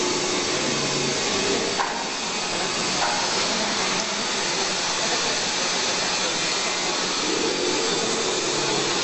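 A filament winding machine, winding resin-soaked fibre onto a form, gives off a steady, loud whirring hum with a faint hiss that stays even throughout.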